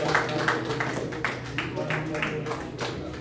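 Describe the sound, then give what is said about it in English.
A church audience claps to praise the Lord, with sharp, evenly spaced claps at a brisk steady rhythm and voices calling out alongside. “Give the Lord a round of applause.”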